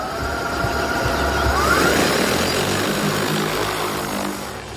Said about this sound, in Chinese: 飞行器即将起桨，请远离。起飞，返航点已记录。